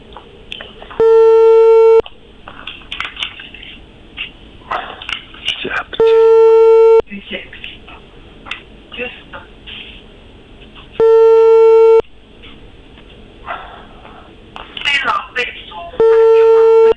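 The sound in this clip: Telephone busy signal after a rejected call: four steady, loud one-second tones, evenly spaced about five seconds apart, with muffled background noises in the gaps.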